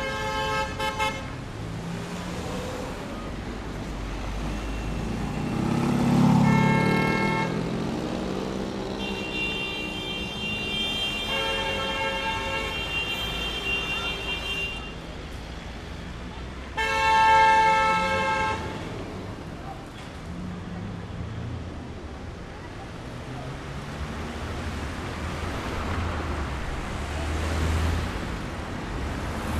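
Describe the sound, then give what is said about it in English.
City traffic noise with passing cars and short honks of vehicle horns over a continuous hum. The noise swells loudly twice as vehicles go by, with a faint murmur of voices in the mix. “If you try to follow the same route today, all you can hear is city noise.”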